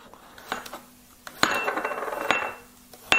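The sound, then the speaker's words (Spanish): A knife chops four or five garlic cloves for a vegetable refrito, a few sharp, crisp knocks spaced unevenly with brief clattery rattles between, fairly soft and without talk. “Bueno, vamos a picar lo que es la verdura. Vamos a 4 o 5 ajitos.”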